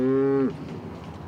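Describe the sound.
A single short, low moo from cattle kept on a floating dairy barn in Rotterdam, loud and clear for about half a second before fading into quiet background noise.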